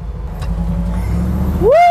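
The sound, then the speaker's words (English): A Bronco's engine rumbles low and steady, then revs hard at the end, its pitch climbing quickly into a loud rising whine as the vehicle drives off. “I'm gonna take the Bronco for a little spin on my own.”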